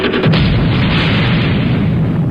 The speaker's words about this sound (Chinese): 随着蘑菇云的腾空而起，中国第一颗原子弹爆炸成功